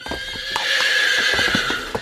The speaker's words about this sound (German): So ist's brav, mein Pferdchen.